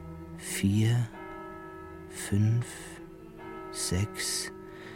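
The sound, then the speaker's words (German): A tower clock bell nearby striking the hour. Three evenly spaced strikes each leave a long ringing hum between them. “Da, ganz in der Nähe, schlug eine Turmuhr. 1, 2, 3.”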